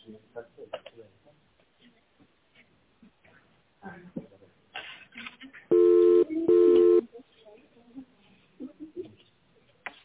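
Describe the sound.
Two short, steady electronic tone bursts sound on a company telephone line as an extension number is dialled, with a brief gap between them. Quieter talking comes before and after.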